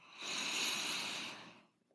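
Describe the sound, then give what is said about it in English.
Soft airy breath through the nose during a mindfulness breathing exercise: a single quiet hiss that swells, holds for about a second, then fades away. “Allowing yourself a few more breaths in the nose and out the nose.”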